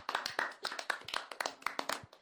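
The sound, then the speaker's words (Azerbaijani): Hand clapping as listeners applaud themselves: a brisk, irregular series of many sharp, crisp claps, fairly quiet, with no voices. “Aferin sizə, özünüzü alqışlayın.”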